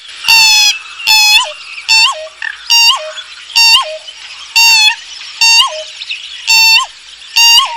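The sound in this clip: Pheasant-tailed jacana calling while foraging in a wetland: many loud, repeated nasal, mewing calls, each a short harmonic burst, delivered in an even rhythm with brief gaps and no voices.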